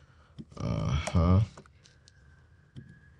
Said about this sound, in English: Hold on a minute there. Gotta type this in here correctly on my math here.